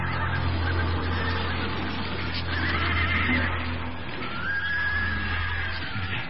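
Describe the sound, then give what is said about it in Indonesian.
Horses neigh as riders on horseback draw near. Whinnies and snorts rise over a constant low rumble, with a clear high whinny toward the end. “Mereka buru-buru bersembunyi, sedangkan orang-orang berkuda itu semakin dekat.”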